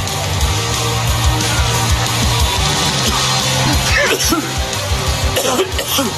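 Harsh coughing and throat clearing in a coughing fit, heard through the steady roar of crowd noise at a Seahawks football game near the end of a close contest; a few rough bursts stand out above the din.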